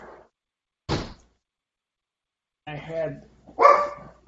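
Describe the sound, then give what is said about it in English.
Sharp barking from a pet dog being let outside, a short bark set apart by pauses, with a person talking afterward. “Gotta let my dog out here.”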